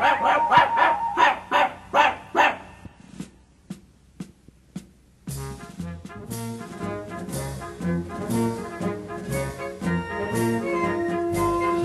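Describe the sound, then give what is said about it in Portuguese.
A little dog yaps out of tune with a children's song in a quick run of about six barks. A near-silent gap with faint clicks follows, then tuneful music starts and builds. “Só quem está desafinando é o cãozinho Lulu.”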